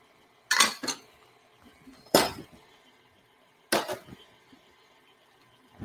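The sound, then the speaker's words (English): Utensil clinks against a bowl while plant-based milk is stirred: three separate sharp, bright clatters, each with a quick second knock and a short ringing tail, spaced apart over quiet. “And then finally, the rest of the plant-based milk. I'm just going to let this stir while I move this over to the side.”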